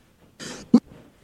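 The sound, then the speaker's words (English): A person coughing: a short breathy cough burst followed by a sharper, punchy cough, then a faint trailing sound, all brief against near silence. “Sorry about all the coughing, by the way.”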